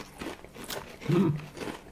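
A faint, brittle crunch of teeth biting into a hard, black pepper or salt-and-vinegar flavoured snack piece, heard as a few quick cracks with soft chewing noises.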